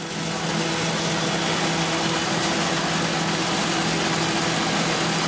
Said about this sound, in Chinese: 这种都是发霉的开心果。 点上了。 对， 好，那接下来咱们下一步要进行什么？把这些都筛出去。现在就依照目前的这个设置点启动。